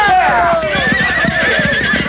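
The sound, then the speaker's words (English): Horses neigh and their hooves clip-clop on a trail as riders turn and ride. A loud whinny sweeps downward in pitch over fast, steady hoofbeats that continue throughout. “Now turn them horses around.”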